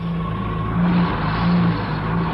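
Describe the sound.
A car engine revs in a couple of rising swells over a steady low droning hum, loud and without voices, as a vehicle is ordered to stop.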